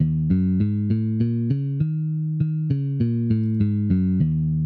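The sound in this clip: A blues scale of the kind taught for beginning improvisation, played on a clean, sustained-tone instrument. Evenly spaced notes climb upward, hold a longer top note, then step back down, heard alone with no voices.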